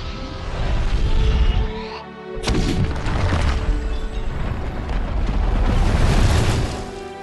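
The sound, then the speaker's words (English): The Tower of Barad-dûr explodes in The Lord of the Rings with a huge, loud roaring rumble of crashing debris. It dips briefly around two seconds in, then surges back into a sustained thundering blast. “just the sound and everything that goes into it. It just looks spectacular, and the Tower of Barad-dûr explodes into a million pieces.”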